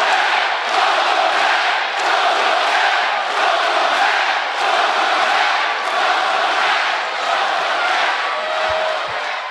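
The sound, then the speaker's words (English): A wrestling arena crowd at a WWE return chants welcome back in loud, rhythmic unison, the massed voices pulsing in regular beats roughly once a second throughout. “his return promo to the WWE Universe. Fans immediately saying, welcome back.”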